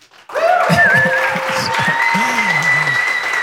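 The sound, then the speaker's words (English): Sustained audience applause at a Dover church service celebrating 75 years: steady, dense clapping over held musical tones, with a voice rising above it. “Dover, could you put your hands together and let me know you're alive?”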